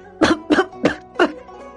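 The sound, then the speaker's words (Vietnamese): Four sharp, loud coughs from one person come in quick succession, roughly evenly spaced. Each cough is a short, breathy burst, and there is no talking. “Ho cái gì mà ho”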